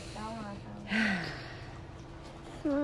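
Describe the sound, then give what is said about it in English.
A crying child, being calmed down, takes a deep breath: one short, sharp inhale amid voices talking. “Take a deep breath, ready?”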